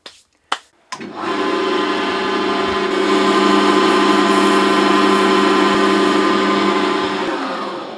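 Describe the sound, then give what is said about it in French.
Power sanding of wood before finishing, with 120-grit abrasive: a few sharp clicks, then a loud, steady whirring grind that starts about a second in and runs unbroken to the end. “donc ce que je vais faire maintenant, je vais commencer le ponçage pour qu'on puisse mettre la finition.”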